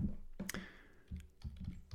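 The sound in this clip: Soft typing on a computer keyboard as a search term is entered: a few irregular, fairly faint key clicks with one sharper tap near the start.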